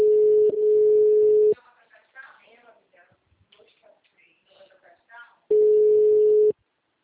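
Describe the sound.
Steady telephone ringback tone on a call being placed back after a dropped line, two long even beeps at one pitch with people talking in the gap between them.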